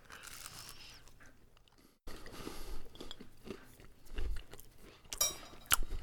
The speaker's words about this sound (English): Actually, I'm gonna just bite it. I can't cut it.